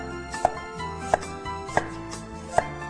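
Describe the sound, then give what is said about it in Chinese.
Young ginger is sliced with a knife, giving four crisp, evenly spaced chops on a cutting board about two-thirds of a second apart over faint steady background noise. “再来是看到的葱跟我们的姜，那我们姜呢要切片哈，姜我们尽量呢用嫩姜哈”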